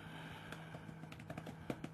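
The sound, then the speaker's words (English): Typing on a computer keyboard, a quick run of faint, irregular key clicks over a steady low hum. “Sorry for the typing.”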